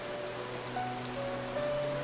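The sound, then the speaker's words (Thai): Heavy rain pours down in a steady, even hiss that holds at the same level throughout, with faint sustained tones beneath it. “ฝนได้ตกลงมาอย่างหนัก”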